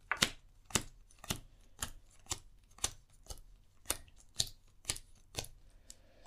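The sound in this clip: Playing cards are dealt out one at a time for a card game, each card landing as a crisp snap in a steady, evenly spaced series of many.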